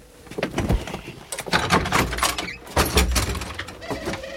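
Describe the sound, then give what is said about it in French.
A sticking door being pushed open: a run of dull knocks, bumps and scraping rattles in irregular bursts, moderately loud, with no voices. “Qu'est-ce qu'elle a, cette porte? À coincer comme ça.”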